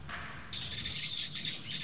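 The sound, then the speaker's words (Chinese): Hungry nestlings chirp while being hand-fed at a wildlife rescue centre in Belgium during a heatwave, a faint high call at first, then a loud, continuous, raspy chorus of shrill begging cheeps. “小心翼翼喂食嗷嗷待哺的雏鸟”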